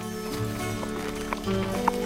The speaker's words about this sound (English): He helps her up into the saddle and she and Stripes trot out of the barn.